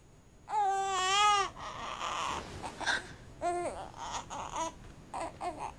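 A baby crying after waking up: one long, loud wavering wail, followed by a few shorter, fainter sobs and whimpers in quick succession.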